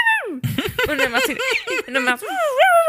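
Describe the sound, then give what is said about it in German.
A person imitates a hiccupping puppy that turns angry and barks: a falling squeal, a run of short, choppy hiccup-like yelps, then a higher, drawn-out yelping bark. “Kennst du das Video von dem Hundewelpen, das Schluck auf hat und dann ganz böse wird und dann bellt? Also es macht so und dann macht es”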